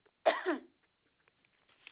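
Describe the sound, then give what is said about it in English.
A person coughs once, a short rough burst with a throat-clearing quality, followed by near silence with only a few faint ticks. “Excuse me, I have to cough here.”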